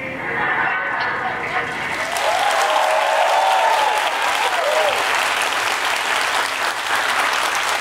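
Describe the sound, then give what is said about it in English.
An audience cheers and applauds a comedy sketch about an airline pilot. Dense, steady clapping fills the whole stretch, with whoops and cheers rising over it partway through. “Can't believe you cheered for that pilot.”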